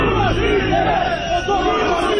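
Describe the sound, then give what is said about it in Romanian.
A crowd of war veterans boos the parliament speaker at the close of a commemoration rally, a continuous loud roar of jeering and shouting voices. “Șeful legislativului, Adrian Candu, a fost huiduit la final de către combatanți, iar mitingul de comemorare s-a încheiat imediat după discursul lui.”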